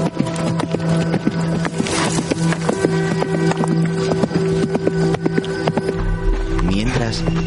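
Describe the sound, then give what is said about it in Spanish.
Hoofbeats of a horse galloping away in a desert western scene: a quick, regular clip-clop that runs steadily throughout at a fairly loud level. “Se marcha al galope.”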